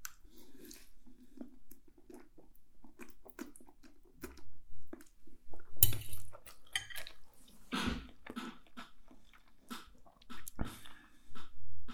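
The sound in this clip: Wet chewing and slurping of very spicy noodles: many irregular smacks, clicks and squishy bursts come one after another at an uneven rhythm, at moderate loudness, with no talking.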